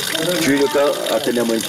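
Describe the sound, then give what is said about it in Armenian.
Water gushes from a hose as garden trees are watered, a steady rushing flow running under a man's continuous speech. “Խնամքով ջրում է այգու հատուկեն ծառերը, որ գարնանը լավ բերք տան”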